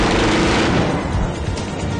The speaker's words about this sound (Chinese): 只顾开枪射击